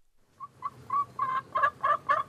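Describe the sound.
A chicken clucks in a coop in the corner of a cinder block house in a Guatemalan village on a volcano's slope. Seven short, rhythmic clucks build steadily louder, with no talk.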